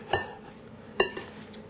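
Two light metallic clinks of a utensil against a pan as Himalayan salt and pine nuts are mixed together. The clinks come about a second apart over a faint background.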